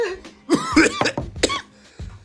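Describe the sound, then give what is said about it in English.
Harsh coughing after a draw on a nicotine vape, with several rough, throaty bursts in quick, uneven succession followed by a final softer cough. “Nicotine make me cough harder than Mary Jane, bro.”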